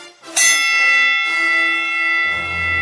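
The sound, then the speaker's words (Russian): A gong is struck to open a wrestling bout under spotlights, giving a sharp metallic hit that blooms into a long, bright, sustained ring with rich overtones that slowly settles. “Прозвенел гонг.”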